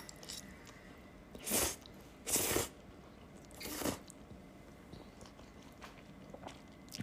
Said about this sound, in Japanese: パスタ食べますね